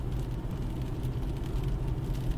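Steady low road rumble and engine hum fill the inside of a car driving home at night from a gig in Port Orchard, Washington.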